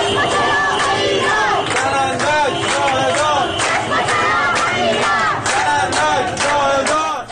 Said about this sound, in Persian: این صدای اعتراض معترضان در اهواز است.